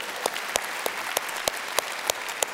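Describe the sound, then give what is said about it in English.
Church audience applauding to welcome remote viewers. Soft, even clapping runs throughout, punctuated by eight sharp, louder claps at a steady pace. “Let's give a hand, welcome them in this morning.”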